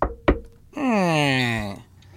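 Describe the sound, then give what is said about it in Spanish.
Two sharp knocks on a door in a small village in Chiapas ring out, then a voice speaks alone. “En un pueblecito de Chiapas, tocan a la puerta.”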